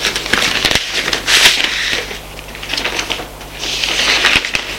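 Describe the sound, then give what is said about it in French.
An envelope is torn open, giving a few bursts of crisp paper crackling and rustling over a low, steady hum. “Une fois elle est sortie de la pièce, elle ouvre l'enveloppe.”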